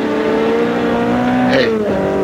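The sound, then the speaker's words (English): A sports car races past at close to 90 or 100, its engine roaring loudly and steadily. The pitch drops sharply as it goes by, then the sound carries on at a lower tone. “besides that maniac driving at that speed. All units. A sports car looked like a Simonetti. I couldn't tell. Went by me too fast.”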